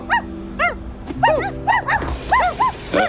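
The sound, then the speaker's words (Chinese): Two puppies barking in a rapid series of high-pitched yips, each short cry arching up and back down, repeated many times over a faint steady background tone. “这两只小狗宝宝不敢过马路”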